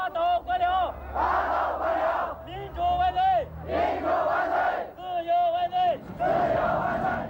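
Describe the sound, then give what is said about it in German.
Agricultural college students chant anti-corruption slogans at a protest in China, a crowd shouting in rhythmic, repeated bursts with short gaps between phrases. “Nieder mit den staatlichen Profiteuren, skandieren die Landwirtschaftshochschüler.”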